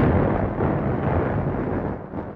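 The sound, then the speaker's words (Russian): A double explosion echoes among mountains, heard as a loud, deep, sustained rumbling roar that fills the whole stretch with no voices. “Сдвоенный взрыв тут же повторило горное эхо.”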